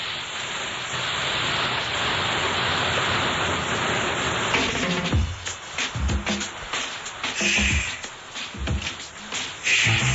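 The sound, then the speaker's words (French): Rain pattering on window panes: a steady hiss of falling rain that breaks into scattered, irregular taps and drips against the glass. “On écoute le plic-ploc de la pluie sur les carreaux”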